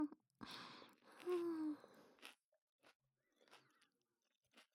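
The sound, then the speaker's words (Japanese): Someone chews food in faint, irregular bursts of soft crunching and mouth noise, separated by short silences and thinning out toward the end. “噛めば噛むほど甘みが出てきて美味しい。”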